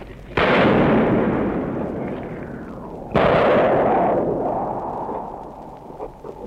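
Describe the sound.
Gunfire in a ruined city during its liberation, heard in a live report: two loud, sharp blasts a few seconds apart, each trailing off in a long, rumbling decay.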